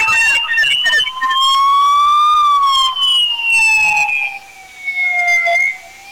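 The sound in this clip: Siren of a fire brigade rescue vehicle, a loud wailing tone that climbs and then slowly sinks, with some speech mixed in.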